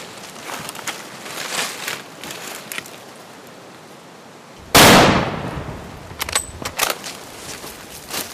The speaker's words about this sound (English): The shot. The bull's agitated surprise to find death inside of him.